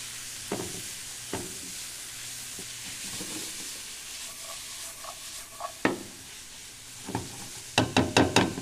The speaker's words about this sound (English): And we don't need to cook these all the way through, we just need to kind of start to sweat them. And while those are sauteing